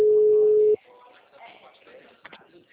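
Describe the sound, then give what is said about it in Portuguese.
A telephone ringback tone while calling a mobile phone: one loud, steady mid-pitched tone lasting under a second, then it stops and faint voices follow. “Tô ligando, deixa eu ver se atende.”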